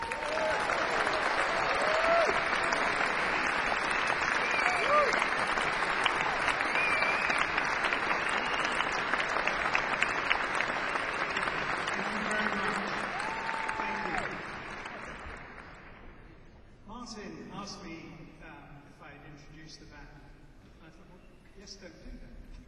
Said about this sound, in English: So, ladies and gentlemen, please give a very warm welcome to Roger Dean.